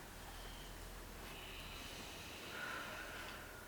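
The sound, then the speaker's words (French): Deep breathing in and out during a guided anger-release exercise, a soft airy hiss that swells briefly near the end, faint and alone. “J'inspire. Et j'expire de nouveau cette colère.”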